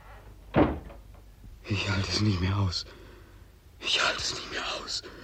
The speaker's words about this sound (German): Machen Sie ganz schnell die Tür zu, sag ich Ihnen.